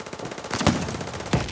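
Video game gunfire: a rapid, even rattle of automatic shots runs throughout, punctuated by two heavier, louder blasts.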